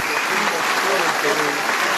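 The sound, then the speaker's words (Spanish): Dense, steady applause fills the parliament chamber for President Keiko Fujimori, a continuous loud roll of many hands with talk running over it. “Pese a ello, los aplausos continúan para la presidenta Keiko Fujimori”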